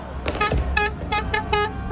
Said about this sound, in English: A cacophony of car horns and firecrackers on the streets of Madrid, Spain.